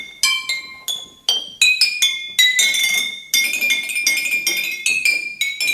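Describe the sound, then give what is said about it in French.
A musical solo tapped out on an empty glass bottle: many bright, ringing clinks at shifting pitches, each note decaying quickly, played in a lively, uneven run. “Ça commence avec un solo de bouteille vide.”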